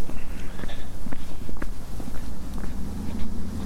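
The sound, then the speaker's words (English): Footsteps crossing a road on foot toward a hillside outdoors: a few irregular, soft scuffing steps over a steady low background rumble. “So we just crossed the road. Walking over here to this hillside”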